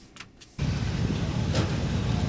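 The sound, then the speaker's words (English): A car engine catches and settles into a steady, deep idle as the car gets ready to go cruising through a town centre; a faint rustle comes just before the rumble starts and holds evenly. “Just come across this beautiful car.”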